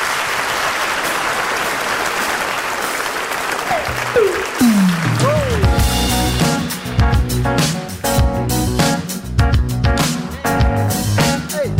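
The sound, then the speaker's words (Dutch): Audience applause fills the opening seconds as a steady dense patter, with music entering around the midpoint and carrying on over the fading clapping; no voices are heard. “Geef ze nog een applaus.”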